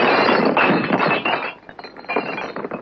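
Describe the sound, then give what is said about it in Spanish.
A gun smashed against drinking glasses in a 1962 western film scene: a dense, loud crash of thudding impact and clinking, breaking glass that holds for about a second and a half, then dips and scatters into further rattling. “Estrella el arma contra unos vasos.”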